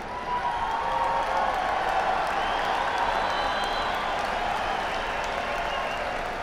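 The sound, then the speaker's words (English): Steady applause from a live concert audience runs through the whole stretch at a fairly even, full level, a dense wash of clapping with no clear breaks. “We appreciate it. We appreciate your applause.”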